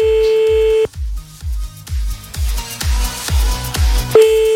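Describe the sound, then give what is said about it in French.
Telephone ringing tone on an outgoing late-night call, a steady mid-pitched tone at the start and again at the end, with rhythmic low thumps in between. “On y va et on appelle le premier maintenant, là, premier de la soirée, enfin premier de la nuit”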